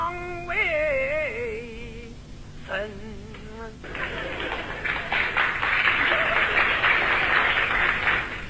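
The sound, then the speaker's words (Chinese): Sparse audience applause at a stage performance. Scattered, uneven clapping enters after a brief tonal voice fades and continues at moderate loudness to the end. “鼓掌的人不多呀，鼓掌的人都是南方人。”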